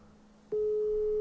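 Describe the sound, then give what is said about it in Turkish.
A telephone call tone while calling someone: after a moment of faint background noise, a steady, single-pitched electronic tone starts abruptly and holds unbroken to the end. “Dur arıyorum.”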